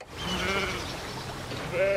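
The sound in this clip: Sheep bleating while grazing on a grassy southern English estate among monumental bronze sculptures: a few wavering, nasal bleats, one early and a stronger one at the end, over a steady background hum.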